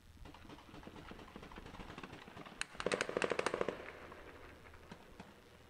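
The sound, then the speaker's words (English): Gunfire during a military raid toward a refugee camp in the West Bank: a sudden rapid burst of many sharp, cracking shots in quick succession, loud over a low background rumble, then trailing off to a few scattered pops. “And again, if there's no Qassam fighters or there's no Hamas fighters in this area, he's doing the shooting.”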